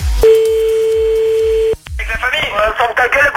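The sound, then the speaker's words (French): A telephone ringback tone sounds during a call: one steady, unbroken beep lasting about a second and a half over low, rhythmic background music. It cuts off and voices begin talking. “Dès que ça sonne plus, c'est à toi.”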